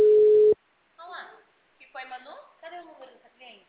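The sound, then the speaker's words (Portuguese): A single short ringback tone on an outgoing phone call sounds as a steady mid-pitched beep that cuts off abruptly. Someone then talks in Portuguese in the quiet that follows. “Tô ligando aqui, ó. Já disse quem tô discando. Tô vendo se ela atende.”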